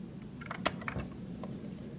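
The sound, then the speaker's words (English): A few faint typing clicks come from an engineer tapping at a computer keyboard at an LED lighting design company, the light taps scattered over a low steady hum. “An engineer types a few clicks at a keyboard”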